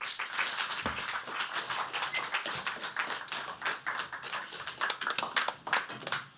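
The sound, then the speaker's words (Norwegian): Fairly quiet audience applause welcomes guests onto the stage for a book talk, a patter of individual claps that stays uneven and sparse across the stretch. “Ja, så vær med applaus til deg.”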